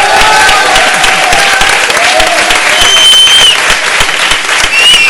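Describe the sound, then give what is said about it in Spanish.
An audience applauds a panel guest at a live event, with loud, dense clapping and crowd noise that stays steady across the whole clip. “Es Joaquín Relaño, un aplauso para él.”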